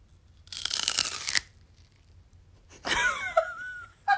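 Biting into a crunchy raw celery stalk: a crisp crunching bite lasting about a second, a quiet pause, then a second snapping crunch and a brief tap at the end, fairly faint.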